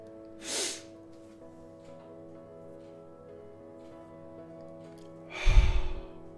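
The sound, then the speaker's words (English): A single breath drawn in, held silently for a count of three, then released as a soft, unforced exhale through an open mouth, over a faint steady hum. “At the end of the three count, I open my mouth and I let the air out without pushing. I just exhale comfortably.”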